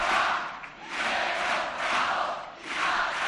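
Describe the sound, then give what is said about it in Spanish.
A carnival audience at the Gran Teatro Falla roars for the chirigota Los Yesterday, a first-prize winner, in loud crowd cheers that rise and fall in a few swelling waves with brief dips between them. “Y aquí está cómo responde el público del Falla con los Yesterday.”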